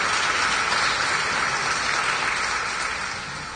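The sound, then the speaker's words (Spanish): An audience claps loudly during a church service: dense, continuous hand-clapping that forms an even roar and eases off slightly toward the end. “Fuertes palmas”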